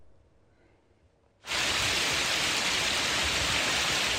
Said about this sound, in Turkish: Dolu ve kuvvetli yağmur etkili oldu.